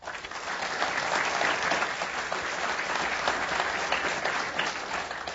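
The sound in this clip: Audience applause welcomes guests onto the stage at a Climate One event at the Commonwealth Club: a steady, dense wash of many hands clapping, sustained at an even level throughout with no talking over it.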